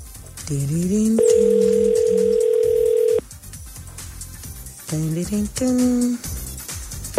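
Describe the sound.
Telephone ringback tone while a call is placed and waiting to be answered: one long, steady mid-pitched tone of about two seconds, with people talking before and after it.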